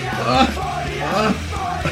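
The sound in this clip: A man yells and groans in pain, a loud, continuous strained cry with a wavering pitch and no breaks.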